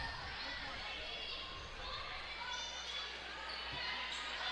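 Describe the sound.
A basketball is dribbled on the court during a women's game, with low, dull bounce thuds under steady crowd noise.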